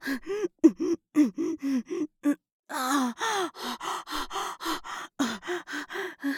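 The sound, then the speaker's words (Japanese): Heavy, voiced exhaling during a breathing exercise: many short, forceful breaths in a steady rhythm, with a longer, rougher breath about midway, heard alone. “だけど呼吸が大事って聞いたから。大きめに息吐いてるの。”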